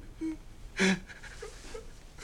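A detainee sobs in short, strained whimpers, with one louder, gasping cry partway through.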